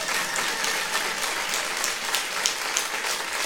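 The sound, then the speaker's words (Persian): Audience applause, a dense and steady wash of clapping that holds at an even level throughout, with no clear voices above it. “آخر یه کف خوشگل براش بزنی”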